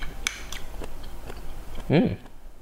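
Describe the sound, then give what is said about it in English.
Someone eats orange slices, with soft, moist bites and chewing. A few quiet crunches give way to one louder, juicy burst near the end. “Let me just eat some of these orange slices.”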